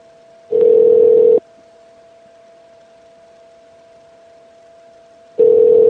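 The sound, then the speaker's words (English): Electronic telephone ringing tone: two loud, steady-pitched bursts separated by a long pause, with a faint continuous hum underneath. “That's my phone.”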